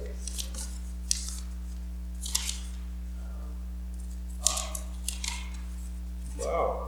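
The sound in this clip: Scissors snip through paper in a few short, crisp cuts spaced unevenly, heard over a steady low electrical hum.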